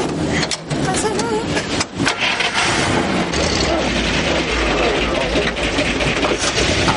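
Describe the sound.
Low engine rumble of a hearse as it drives away, a steady road and motor noise with voices talking over it.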